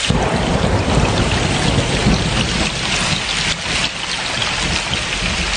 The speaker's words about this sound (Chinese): 快捂住耳朵，马上就要打雷